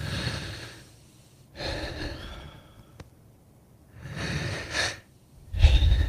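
Deep breaths taken at the start of a guided meditation come as slow, airy inhales and exhales in about four broad breathy swells, each separated by a quiet pause.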